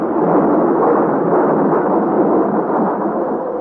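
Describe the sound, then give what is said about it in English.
Heavy thunder in a storm at sea: a continuous, loud, rumbling roar with no pauses and no clear separate cracks, thick in the low and middle range throughout. “And now to the fearful claps of thunder are added dazzling flashes of lightning such as I have never seen before.”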